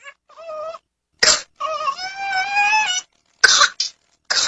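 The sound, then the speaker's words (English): A classic whooping cough fit from pertussis: sharp, harsh cough bursts broken by a long, high-pitched whooping intake of breath that wavers and climbs in tone, followed by more abrupt coughs. “Classic whooping cough, known to doctors as pertussis, sounds like this.”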